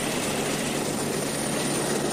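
An aircraft roars steadily through its takeoff run, its loud, dense engine noise holding level without pause and covering the whole moment, with no voices on top.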